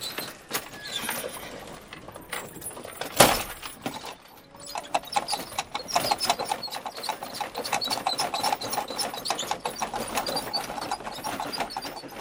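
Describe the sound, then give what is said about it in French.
Hooves of a horse-drawn fiacre clip-clop through Paris in a quick, steady rhythm. One sharp, louder knock stands out early on, and the hoofbeats carry on at a moderate level. “Et puis, tu connais bien Paris ? Devine où nous conduit le fiacre.”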